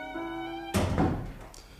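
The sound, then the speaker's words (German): A door is closed in a restaurant, landing as a single solid thunk with a brief dull rumble trailing off after the impact. “Kellner, schließen Sie die Tür.”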